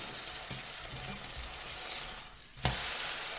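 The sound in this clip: Food sizzles steadily in a hot frying pan as it is flipped; the even hiss briefly drops quieter, then bursts back louder as the food lands on its other side. No voices.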